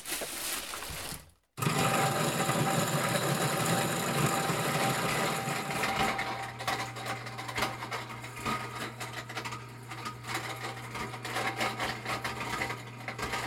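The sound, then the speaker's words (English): A Champion juicer with a heavy-duty motor and a grain mill attachment grinds corn into cornmeal: a loud, steady mechanical whir and rattle that cuts out briefly, starts again, then settles into a lower droning hum with gritty crackle. “They have a grain mill attachment for their Champion juicer. It's one of those classic juicers with a heavy-duty motor. I'm going to grind it twice because you had to crack it first.”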